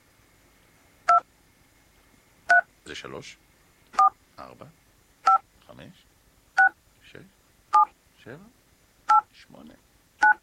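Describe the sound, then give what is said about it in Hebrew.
Telephone keypad tones from dialing: eight short, clean dual-tone beeps at a steady pace, each followed by a voice speaking briefly in the gaps between them. “אני הולך להשמיע לכם עכשיו את צלילי המקשים. כן, נכון שאנחנו מחייגים למישהו בטלפון, אז יש כזה את הצליל מקשים”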